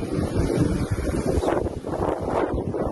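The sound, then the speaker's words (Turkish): Wind roars from a waterspout that formed offshore over the Aegean Sea, filmed from the Menemen plain. The gusting rumble is loud and continuous, with heavy microphone buffeting throughout and no voices. “Ege Deniz açıklarında oluşan bir başka hortum da Menemen Ovası'ndan görüntülendi.”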